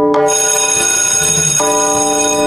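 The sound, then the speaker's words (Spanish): A bell rings out with a bright, sustained metallic tone full of steady overtones, holding loud and even from start to finish with no talk. “tocó la campana”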